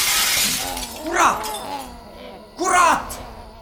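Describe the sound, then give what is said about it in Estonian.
Glass windows shatter as attackers break through them at a railway station, two loud crashing bursts of breaking glass separated by a pause, with voice-like vocal sounds underneath. “kui nood ka kõrval olevatest klaasidest läbi murdsid ja teda külgedelt haarasid”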